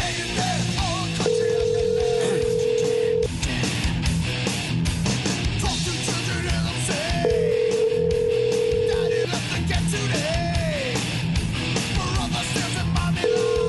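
Ringback tone of a telephone during a call back: steady mid-pitched ring tones repeat at regular intervals, two full rings and the start of a third, each about two seconds long, over a busy, cluttered background.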